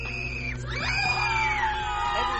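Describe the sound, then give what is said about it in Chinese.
Students scream and cry during a school shooting simulation in virtual reality training software: high, wavering wails with several overlapping cries that rise and fall, sustained without a break. “虽然枪击案在屏幕上展开，可是学生的尖叫和哭喊都让人毛骨悚然。”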